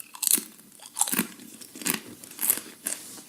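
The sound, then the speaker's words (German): A tortilla chip crunches as someone bites and chews it. Several short, faint, crisp crunches come at irregular intervals, with quiet gaps between them and no talk. “er probiert den Tortilla-Chip. Man hört es jetzt vielleicht ganz leicht im Mikro.”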